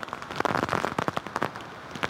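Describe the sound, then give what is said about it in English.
Heavy rain in tropical-storm wind in Lafayette, Louisiana: a dense, loud, continuous crackling patter with many overlapping sharp drops and no pauses throughout. “conditions really intensifying over the last 30, 45 minutes. The rain picking up, the wind as well. We've had some gusts up to tropical storm strength.”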